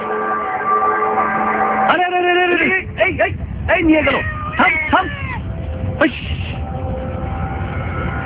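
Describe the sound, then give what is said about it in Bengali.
A large brown cat that snatched raw chicken meat gives deep, odd meows unlike an ordinary cat's. Several gliding, drawn-out calls mix with talking voices. “বিড়ালের ডাক শোনা যায়, অন্যান্য বিড়ালের মতো নয়, ওর ডাকটা একটু অন্যরকম”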